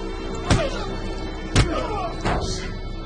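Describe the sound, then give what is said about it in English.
A man struck in the back with a gun butt, kneed in the gut and shoved against a truck: three dull, heavy thuds about a second apart over a steady low hum. “He strikes the driver in the back with the butt of his gun, knees him in the guts, and pushes him against the truck.”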